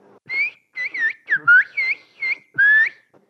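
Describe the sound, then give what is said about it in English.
Whistled Turkish asking for one kilogram of tomatoes, sounded alone as a run of about eight high, gliding whistled syllables with clear rises and falls in pitch. “If I wanted to ask for 1 kilogram of tomatoes in Turkish, I'd say, Bir kilo domates lütfen. Which in whistled Turkish would be,”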